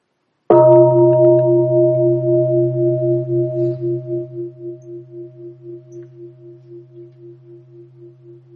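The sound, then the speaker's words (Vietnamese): One full ring of a mindfulness bell: a single clear strike, then a long, pure, sustained tone that fades slowly over several seconds with a gentle pulsing waver. “Thì sau đó mới thỉnh một tiếng chuông tròn đầy.”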